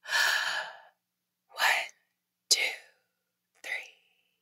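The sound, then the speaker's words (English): Breathing during a slow breathing exercise: one long, airy breath, then three shorter, sharper breath sounds with pauses between them. The breaths are soft and unvoiced, with no talk. “So let's do it together, okay? One breath in and then a slow 4 second exhale.”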